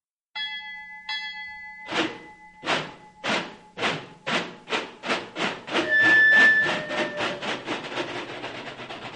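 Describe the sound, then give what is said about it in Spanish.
A steam train starts up after a couple of ringing bell tones, its rhythmic chuffs growing quicker and closer together as it gathers speed, and a whistle-like tone sounds partway through. “Listen at that rhythm train, boy.”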